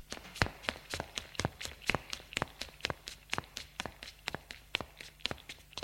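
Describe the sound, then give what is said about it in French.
A child's quick footsteps as he runs away: many sharp, evenly spaced steps in a fast, steady rhythm, moderately loud and without talk. “L'enfant se sauve en courant.”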